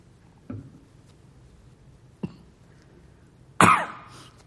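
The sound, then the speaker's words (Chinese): A man coughs three separate times while seated leading a church Bible fellowship, each cough a sharp burst with silence between, the last one loudest and longest. “不好意思，因為我坐在這裡講話是咳多一點，所以大家要忍耐一下。”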